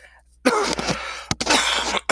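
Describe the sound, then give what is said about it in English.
A person with a lingering cough coughs and clears their throat in two harsh, raspy bursts separated by a short gap. Both bursts are loud, and there is no speech. “I've been trying to shake this cough for a long time now.”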